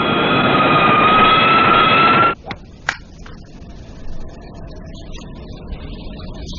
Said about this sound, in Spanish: Nos disponemos ahora a aterrizar en Houston.